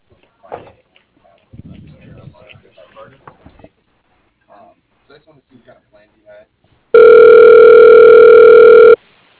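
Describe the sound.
A single steady telephone ring tone, about two seconds long, sounds on the line as a call is transferred to voicemail. It follows a few quiet bursts of talk and small clicks.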